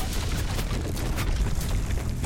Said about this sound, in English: Corvin steps out of cover. Pulse blasts rip through the air and impact wildly on the rooftop's edge.